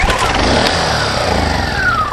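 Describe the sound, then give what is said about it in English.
A small petrol engine pull-started without choke at 59 degrees runs loudly and steadily, a dense mechanical drone with a thin whine climbing in pitch near the end. “All right, I just start pulling until it starts.”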